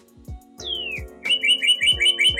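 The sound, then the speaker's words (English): A bird chirps in a recording booth: one clear whistle slides downward, then a rapid run of many bright, high chirps follows in an even, lively rhythm. “Do you hear that sound? That bird in the podcast booth? It's the sound of the early bird getting the worm.”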